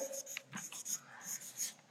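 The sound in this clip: Faint, scratchy writing strokes, someone writing by hand during a German talk on faith, many short rasping scrapes in an uneven rhythm, with no voices.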